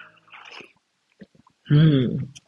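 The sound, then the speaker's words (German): A mug of Yogi tea is sipped with a short breathy slurp, followed by a few faint mouth clicks. A brief louder voiced sound comes near the end. “Ich freue mich so auf diese Folge und ich habe schon einen trockenen Mund und muss jetzt an dieser Stelle erstmal einen Schluck Tee nehmen.”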